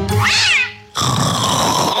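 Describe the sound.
A cat gives one loud, wavering meow over a steady tonal background bed, which carries on alone after the meow ends.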